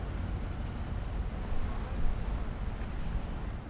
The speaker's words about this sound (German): Wenige Minuten nach dem Anruf der Einsatzzentrale nimmt der Kapitän Kurs auf Wedel, elbabwärts.